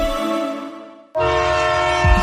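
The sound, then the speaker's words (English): Two sustained horn blasts from an Amtrak Cascades passenger train running between Seattle and Portland: a loud, steady harmonic chord that fades, breaks off briefly, then sounds again at full strength, with a low rumble near the end. “With 12 Amtrak Cascade trains between Seattle and Portland, you're covered for travel morning, noon, and night.”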